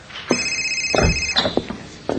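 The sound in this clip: A telephone rings with one bright, high electronic trill lasting about a second, followed by a few dull thumps and no talk.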